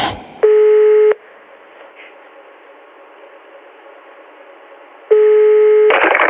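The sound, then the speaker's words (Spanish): Telephone dialing tones sound as two long, steady electronic tones separated by several seconds of low line hiss, each tone starting and stopping abruptly. “Oiga, pero es 01900 o 01800. ¿Cuál acabas de marcar?”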